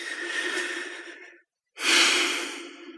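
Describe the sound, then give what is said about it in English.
A deep breath taken during a guided relaxation exercise: two long, airy rushes of breath with a brief silent pause between them. The second rush starts louder and fades gradually. “Another deep breath.”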